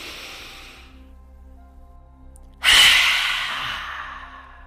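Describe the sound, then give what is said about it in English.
A deep breath released through a wide-open mouth during a guided breathing exercise: a soft, airy inhale gives way to a sudden loud, breathy sigh that trails off gradually. “open your mouth nice and wide as if you're going to yell. But at that point, you're just going to release your breath. So take that deep breath in.”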